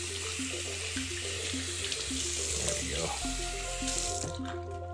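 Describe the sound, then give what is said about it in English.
Running tap water pours into a sink while hands are washed, a steady, fairly loud broad hiss that continues through the whole clip with little change. “Oh yeah, I'm supposed to be washing my hands.”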